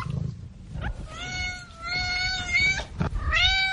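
A cat meows twice while settling into a folded blanket bed: first a long, drawn-out, high-pitched meow, then a shorter one after a brief pause. No voices are heard.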